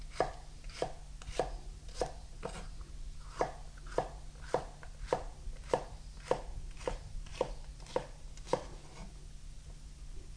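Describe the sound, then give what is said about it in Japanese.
A knife chops through a halved, seeded vegetable, slicing it cut side down into 5 mm strips. Many crisp, evenly spaced cuts land in a steady rhythm against the board, each a sharp tap. “そして半分に切った断面を下に置いていただきまして、端から5ミリ幅ほどに切っていきます。”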